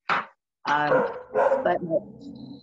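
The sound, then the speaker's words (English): A pet dog barking at home: one short bark, then a longer run of yelping, whining barks with uneven pitch, fairly loud and with no one talking. “I heard your dog. My dog. Yeah, that's my dog. I hear my dog.”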